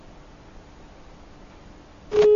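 A phone line goes dead after a call is cut off. Quiet line hiss gives way near the end to a loud, steady, single-pitched busy tone.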